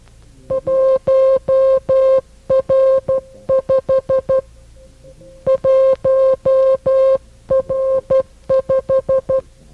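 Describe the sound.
Morse code tones sending the number 1.5, with the letter R as the decimal point: a steady mid-pitched beep keyed in short and long pulses, grouped into several clusters separated by brief silences.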